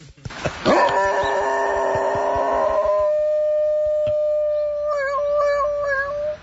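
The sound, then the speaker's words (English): A dog howls like a siren. After a few sharp clicks at the start, a long, sustained wail rich in harmonics holds a steady pitch, then wavers near the end. “here comes Mike searching for the dog howling like a siren”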